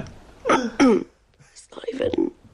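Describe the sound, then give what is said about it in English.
Performative coughing from one person: two short, exaggerated, throaty coughs in quick succession, followed by a rougher, drawn-out vocal rasp. “So there's a performative cough. The cough sound, they do sound performative, the cough.”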